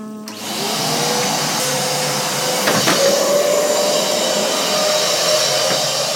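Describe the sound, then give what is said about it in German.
Vacuum cleaner sucking up crumbs of an organic rice cake, a loud steady whooshing drone that holds without a break, with a faint brief clatter partway through. “saugt sehr gründlich mit dem Staubsauger die Krümel einer Bio-Reiswaffel direkt vor unseren Füßen auf”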